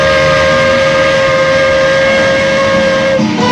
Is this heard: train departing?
yes